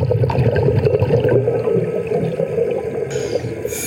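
Continuous bubbling and gurgling water as a cave diver goes down into an underwater cave, a dense steady churn throughout with a brighter hiss near the end.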